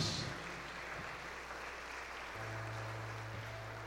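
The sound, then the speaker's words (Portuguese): Applause for a man carrying a holy image at a Catholic prayer gathering, a faint, steady patter of clapping hands over a low hum. “Uma salva de palmas para ele”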